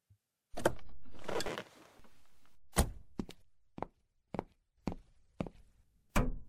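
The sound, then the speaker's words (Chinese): A car trunk is opened: a whirring motor hum comes first, then several sharp clicks and thuds at irregular intervals, all fairly faint. “把后备箱打开下，妈妈把泡澡的东西放进去。”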